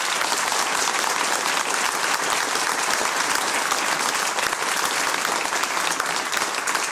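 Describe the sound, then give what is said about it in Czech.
A packed theatre audience applauds, a thick, continuous wash of clapping that holds at an even, loud level from start to finish. “vy jste tak lačná, paní, na to tleskání, to je krásný”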